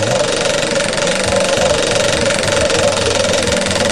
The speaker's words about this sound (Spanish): Giremos la ruleta otra vez. Venga, vamos, dale a la ruleta, dale.